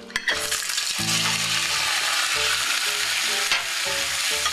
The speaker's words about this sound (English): 1 tablespoon, in the hot saucepan. And then I'm going to add my meat so that it'll, as soon as it gets the color.